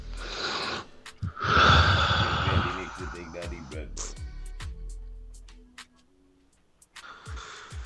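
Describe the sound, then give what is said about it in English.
A deep, loud breath drawn in a long airy rush, followed by quieter voiced sounds and brief clicks before fading to near silence. “Let me hear that deep breath again”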